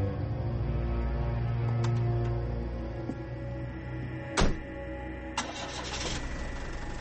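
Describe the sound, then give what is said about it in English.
A taxi cab's engine starts and the car drives off: a faint, steady mid-pitched rumble with a couple of sharp clicks partway through. “He just got in a cab. It's Sherlock. He just drove off in a cab.”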